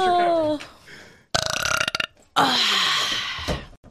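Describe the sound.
Burping, a few loud, rough belches in separate bursts, with short quiet gaps between them and a faint trailing burp near the end.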